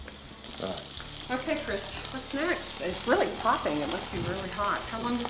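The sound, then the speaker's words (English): Food searing face down in a hot pan before going into the oven, a continuous bright sizzle and crackle under people talking. “All we're doing here is just searing. Oh, okay. So we're going to sear it in the pan here, and then we're going to put it in the oven.”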